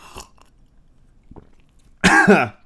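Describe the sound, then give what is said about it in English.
One harsh, loud cough bursts out near the end after tea went down the wrong pipe, following a stretch of faint small noises. “oh God, oh, I drank tea down the wrong pipe.”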